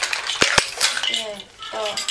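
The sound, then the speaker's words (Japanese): Dishes and utensils from a toy play-kitchen set are handled: two sharp clicks come near the start, followed by lighter clinks and rattles, with voices talking over the play. “あ、おままごとセットがあるんだよ、この間のあれで買ったの、あの、どうぞって。”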